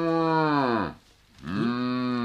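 An ox mooing twice. The first loud, harmonic low slides down in pitch and fades out, then after a brief gap a second call rises back up and holds steady.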